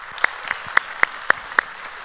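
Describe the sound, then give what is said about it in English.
Six sharp, evenly spaced claps ring out at a campus family meeting. Each crisp slap stands alone above a quiet background. “put your hands together and welcome them to our time of study today”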